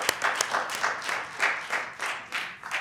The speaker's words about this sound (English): So, Bashar, come on forth and bring the word of the Lord to us. Let's welcome him.